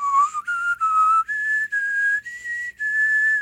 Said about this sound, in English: But you can also whistle while inhaling. I find it a little bit harder to control. It's a kind of harsher sound